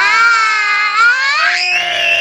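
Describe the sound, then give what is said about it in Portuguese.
A child screams loudly in a shrill, sustained voiced cry. The pitch holds, then climbs sharply higher in the final part. “Eita, grito! Essa gritando em casa é fera.”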